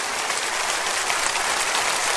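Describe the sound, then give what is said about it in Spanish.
Congregation applauding in thanks during a church sermon, a thick continuous wash of many hands clapping at a steady, fairly loud level for two seconds, with no speech on top. “Dele un aplauso de agradecimiento.”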